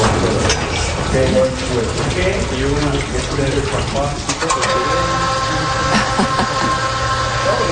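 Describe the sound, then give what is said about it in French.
Running water and the mechanical hum of an aerial lift platform during monthly maintenance of a wall: a steady rushing flow, with a droning machine tone joining partway through. “Alors, on entend de l'eau qui coule, ouais. On entend un bruit mécanique oui. aussi. Alors, c'est la nacelle.”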